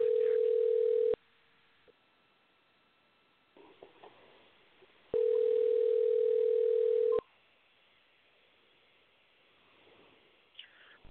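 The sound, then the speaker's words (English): Telephone line tone on an outgoing call to a dispatch line: two long, steady, loud tones separated by a quiet gap, with faint clicks and low noise in between. “I'm going to dial this number. Hopefully we can make human contact.”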